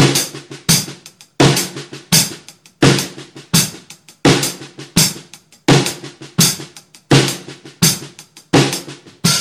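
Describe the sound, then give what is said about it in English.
Fast paradiddles played with the hands between hi-hat and snare drum form steady, repeating groups of crisp strokes with regular accents, loud and alone throughout. “we're doing 2 sets of paradiddles with our hands between the hi-hat and the snare drum.”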